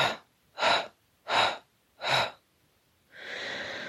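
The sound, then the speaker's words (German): Slow breaths out during a guided breathing exercise: four evenly spaced, breathy exhales with short pauses between them, then a longer, steadier stream of breath that carries on to the end. “Langsam ausatmen. Und viermal aus.”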